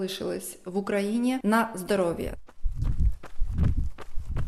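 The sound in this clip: Footsteps of a slow jog on an asphalt forest path. A voice speaks first, then a run of soft, rhythmic thudding strides follows at an unhurried, even pace.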